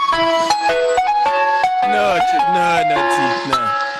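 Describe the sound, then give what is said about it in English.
A tinny ice cream van jingle plays alone, a bright melody of stepped, sustained notes with rich harmonics, staying fairly loud and even for the whole stretch. “I think all electric cars should be fitted with the ice cream van soundtrack.”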